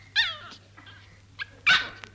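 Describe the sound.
A dog whimpers and yips in a few high, whining cries, two of them louder than the rest, over a faint low steady hum.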